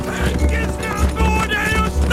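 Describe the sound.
Galloping horse hoofbeats in an audio drama, a fast, steady rhythm of thudding clip-clops running throughout, under loud talk.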